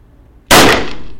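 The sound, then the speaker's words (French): A single gunshot fired at a target on a shooting range: one sudden, very loud blast that follows near silence, then a long, bright ringing tail that slowly fades. “Alors, je remarque que vous avez tiré au centre de la cible.”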